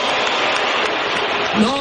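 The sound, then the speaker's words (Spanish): Stadium crowd applauding the French national team during a match, a dense, steady wash of clapping with a brief raised voice near the end. “Así que, por favor, démosle un aplauso a la selección francesa y démosle nuestro cariño.”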